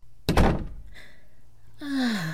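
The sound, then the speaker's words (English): A hotel room door being opened lands with one loud thunk near the start, followed by softer rustling noises and a faint tone. “Open the door, maybe. Thanks.”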